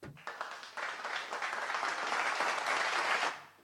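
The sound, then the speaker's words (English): Applause breaks out as a dense, even patter of many claps. It swells quickly, holds steady and fairly loud, then stops abruptly just before the end. “I just wanted to applaud you.”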